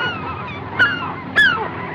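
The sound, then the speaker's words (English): Goose-like birds give two loud honking calls, each a short sharp cry rising above continuous low background noise. “The birds. The birds!”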